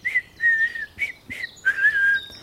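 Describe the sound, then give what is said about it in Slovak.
Cheerful whistling for a rabbit strolling happily through a forest: several short, bright, high-pitched notes and gliding phrases separated by brief pauses. “Zajačik si vykračoval po lese v dobrej nálade a pískal si.”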